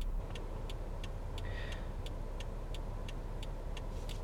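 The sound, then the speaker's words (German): Quiet interior of a car, a faint low steady rumble with a rapid, regular light ticking running throughout, no talk. “Ich befinde mich gerade im Fahrzeug meiner Holden.”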